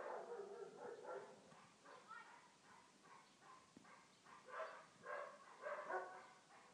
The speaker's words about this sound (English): I think everyone on this street has a dog, and you wake up to this in the morning.